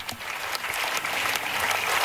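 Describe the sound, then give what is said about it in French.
Applause from a packed synod hall audience greeting Pope Leo XIV, dense continuous clapping with a few sharper individual claps standing out. “C'est donc le pape Léon XIV, applaudi en ce moment par l'Assemblée, des dizaines et des dizaines de personnes dans une salle du synode comble”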